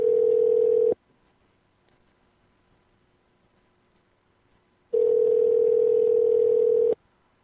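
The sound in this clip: Telephone tones sound as a call is placed again. Two steady, single-pitch tones are separated by a long silence, the first lasting about a second and the second about two seconds.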